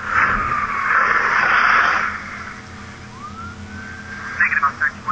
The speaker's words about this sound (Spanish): Que escuché alguna sirena de policía, ¿no?